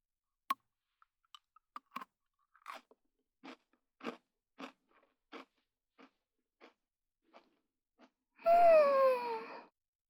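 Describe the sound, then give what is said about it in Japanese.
Pocky chocolate biscuit sticks are bitten and chewed, giving many sharp, dry crunches at an irregular pace that grow softer over time. A brief voiced murmur follows at the end. “たくさんポッキー食べてあやからないと。ってことで、はい、どうぞ。一緒に食べよう。せーの。”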